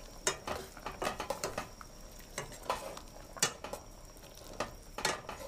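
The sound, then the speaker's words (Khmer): Utensil stirring food in a pan after a little salt is added, giving many irregular clinks and scrapes against the metal in an uneven rhythm, with no talking. “យើងកូរវាឲ្យសព្វ”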